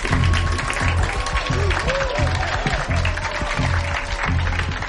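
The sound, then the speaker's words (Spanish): Comedy club audience applause in Gotham: a steady patter of many hands clapping at a moderate level, with crowd murmur and a few brief tonal voice sounds threaded through it. “Otro aplauso para Sam Bonnie.”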